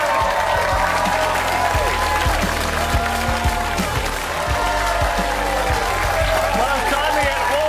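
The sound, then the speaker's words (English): Audience applause and cheering greet football guest Archie Thompson, a dense, steady roar of clapping mixed with crowd whoops and voices that holds at an even loudness throughout. “Would you please thank Archie Thompson?”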